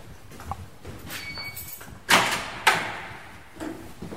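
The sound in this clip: A white door is opened in a long corridor of a barracks building, with a faint squeak followed by two sharp, loud clacks in quick succession and a softer knock after.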